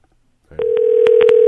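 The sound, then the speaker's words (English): A telephone dial tone comes in as the line is picked up: a steady, mid-pitched hum that holds to the end, broken by a few sharp clicks as the phone is dialed. “Yeah, let me dial him up right now.”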